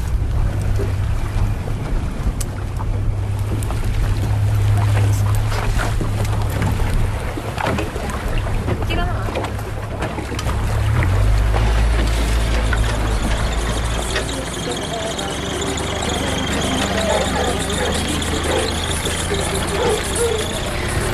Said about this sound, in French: Il y a beaucoup de mouvements parce que le bateau de marchandises qui ravitaille l'île tous les 15 jours vient d'arriver.